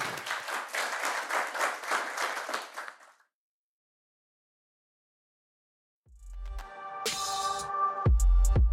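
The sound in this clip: Audience applause thanking Andrew Leigh at a University of Sydney talk: about three seconds of dense, steady clapping that fades out, followed by silence and then other sounds.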